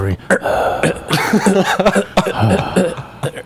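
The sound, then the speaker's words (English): A man clears his throat into a studio microphone in a few rough, gravelly bursts amid voices and light chuckling. “The odd throat sound.”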